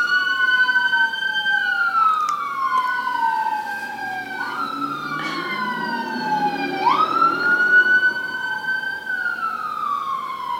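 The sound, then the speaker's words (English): An emergency vehicle siren wails in long sweeps that repeatedly rise and drop in pitch, loud and continuous over a low engine rumble, with no voices. “Cue the sirens.”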